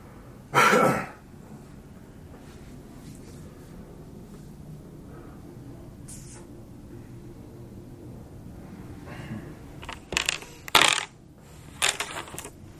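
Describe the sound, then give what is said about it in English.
Dice clatter as they are rolled: one sharp burst of rattling near the start, then a few quick clattering bursts toward the end, with a low, steady background hum in between. “I could just be rolling dice for the hell of it.”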